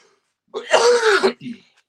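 A person who has been coughing heavily gives one rough, voiced throat-clearing cough, then a short softer second burst, loud and alone.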